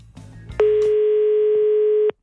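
A telephone ringing tone sounds while a farmhouse is being called: one long, loud, steady tone lasting about a second and a half, which follows a brief bit of low noise and cuts off abruptly.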